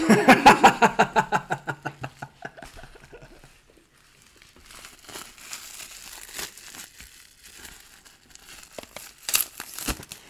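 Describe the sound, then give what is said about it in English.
A crinkly wrapper is pulled open. A quick run of loud, evenly spaced crackling bursts fades out within about two seconds, and softer, scattered rustling and crinkling follow. “Oh wait, here's a better sound. Something being unwrapped.”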